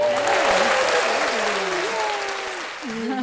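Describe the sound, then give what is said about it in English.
An audience applauds as a guest is welcomed onto a goth-scene show, a dense, loud, steady wash of clapping with a voice speaking over it. “Our audience is going wild.”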